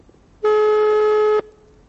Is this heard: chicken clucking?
no